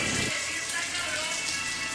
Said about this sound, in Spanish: ¡La ropa, se vino el agua! ¡La leña! ¡Hay que meter la leña! ¡La ropa, se vino el agua!